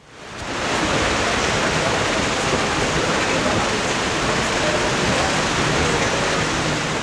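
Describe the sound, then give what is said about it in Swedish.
Rain falls on a white umbrella during a women's golf tournament in the Netherlands. It makes a dense, steady hiss of drops that fades in quickly, then holds evenly throughout. “framförallt kanske har det varit rätt blött kan man säga. Så här har det låtit under det vita Radiosporten paraplyet idag.”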